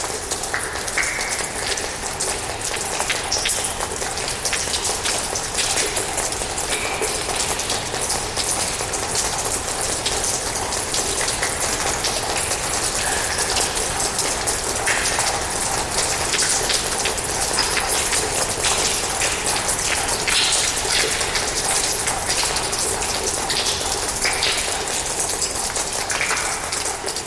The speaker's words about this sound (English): that just was this beautiful, patter because it includes the reverberation of the ice, both on the floor, but everything around you is ice in this. So that has a very distinct quality.